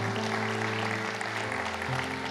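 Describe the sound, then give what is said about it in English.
An audience applauds in church, a steady wash of clapping held at an even level throughout, with sustained low tones running underneath. “can we give a round of applause for the two people that just put their hand up and said, I want to follow Jesus?”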